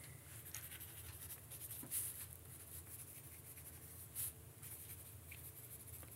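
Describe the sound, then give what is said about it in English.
Someone writing by hand makes quiet, continuous scratchy strokes, with two brief louder scrapes standing out partway through. “But I have to finish writing this first.”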